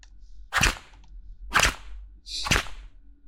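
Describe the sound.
Three sharp whip cracks ring out about a second apart, each crisp and loud, with near silence between them.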